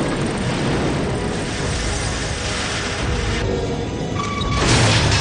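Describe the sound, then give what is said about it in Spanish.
A house collapsing with a great burst of fire in a Batman Begins scene, a loud continuous roaring rumble with crashing debris that swells and grows louder toward the end. “Mientras, la casa entera se viene abajo. El montacargas comienza el descenso justo cuando una gran lengua de fuego se dirige hacia ellos.”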